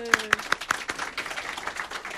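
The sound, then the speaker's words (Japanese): A small audience claps for a songwriter and lyricist arriving at a radio show, with a few loud, sharp opening claps that thin into scattered, lighter applause, while a brief voice sounds at the start. “拍手。”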